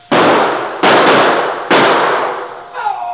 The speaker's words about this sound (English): Hey, they're shooting.